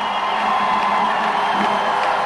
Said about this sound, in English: Days later, the protest crowd numbered in the thousands.